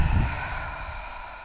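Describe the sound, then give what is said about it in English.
A long exhale out through the mouth during a guided relaxation breathing exercise. It is a soft, breathy rush that is strongest at the start and slowly fades away. “another inhale in through our nose. Exhale out of our mouth.”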